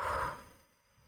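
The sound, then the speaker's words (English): A single soft exhale through the mouth, part of a gentle breathing exercise, starts as a faint breathy rush and fades away within about half a second into near silence. “Just gently breathe in through your nose. And then release the air through your mouth.”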